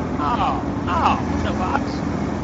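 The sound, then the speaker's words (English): Steady low engine rumble of a bus pulling up in a video game, continuous through the moment, with voices talking over it. “I really hope that bus is on its way around. Oh, there you are.”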